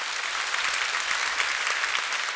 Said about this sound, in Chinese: 阿们，我们再次拍手给圣灵。